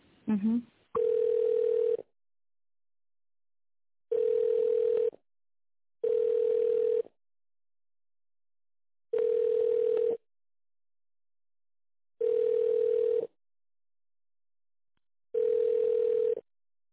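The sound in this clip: A telephone ringback tone plays while a call is transferred to the accounting department: six steady, buzzing, mid-pitched tone bursts of about a second each, separated by pauses of uneven length, after a short sound at the start.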